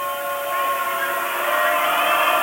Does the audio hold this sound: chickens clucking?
no